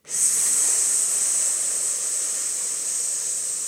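A long, steady exhaled 'sss' hiss from a person during a pelvic-floor breathing exercise. It holds evenly for several seconds with a bright, sharp tone and no talk.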